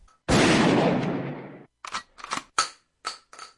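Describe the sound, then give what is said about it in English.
Gunshot fired at something in a backyard: one loud, harsh blast with a long fading tail, followed by several shorter, sharp cracks and clicks in quick, uneven succession. “there's something in the backyard. What is it? Is it supposed to be there? No. Well, then shoot it.”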